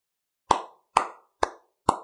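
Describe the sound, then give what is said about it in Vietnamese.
Four light, evenly spaced hand claps, each a sharp snap with a brief decaying tail, standing alone against silence. “Tiếng vỗ tay vang lên.”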